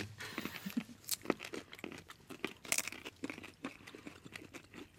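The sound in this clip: Crisp crunching from chewing raw parsley root during a tasting, with many irregular bite-and-chew crunches and crackles spread unevenly across the whole stretch.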